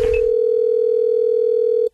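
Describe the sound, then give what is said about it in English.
Ringback tone of an outgoing phone call placed to confirm an appointment: one steady, loud electronic tone that holds for about two seconds, then cuts off abruptly. “calling Mark to confirm the appointment that we have”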